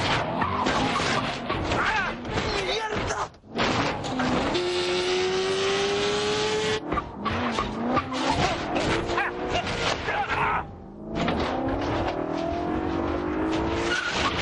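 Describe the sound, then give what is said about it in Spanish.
A motorbike and a car drive down the stone access stairs of a castle during an action-film chase, a loud, continuous engine roar with rising revving whines, tire squeals and jolting impacts, broken by a few brief dips. “Moto y coche bajan la escalera de acceso a un castillo.”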